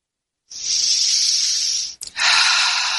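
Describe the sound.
A long, airy breath drawn through the nose or mouth, a steady hissing rush that ends abruptly, then a second breathy rush after a brief break. It is heard on its own, with no talk.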